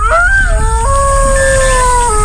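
A robotic wolf with large fangs and flashing red LED eyes lets out an electronic howl of several layered, sustained tones that glide and step in pitch, loud and continuous over a steady noisy background.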